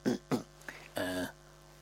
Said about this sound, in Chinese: 阿斯哈清了清嗓子